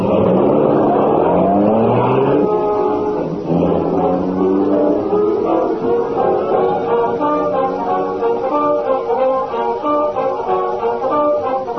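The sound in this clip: A car drives off. Its engine gives a loud, steady droning hum with layered tones that climb early on and then hold level to the end, with no voices.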